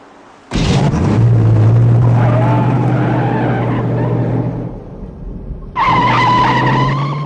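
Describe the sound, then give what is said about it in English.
A car's tyres squeal loudly as it speeds away from a motel, its engine roaring. One long, sustained screech is followed by a short dip and then a second shrill burst of skidding. “They speed away from the motel.”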